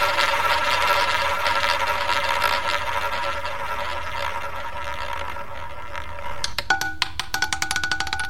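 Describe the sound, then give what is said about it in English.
Prize wheel spinning: a rapid run of sharp, bright clicks near the end, coming after a long steady humming drone. “Let's see who we're going to spin that wheel for us.”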